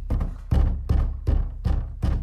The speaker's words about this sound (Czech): Ale učitelovi pěsti se nedali, zase zabušili na dveře.